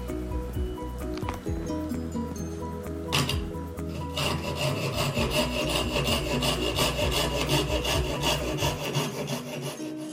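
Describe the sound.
A fret saw cuts wood clamped on a Y-shaped support fixed to a workbench, making rhythmic rasping strokes, sparse at first, then after a brief pause a dense, steady run of many quick strokes.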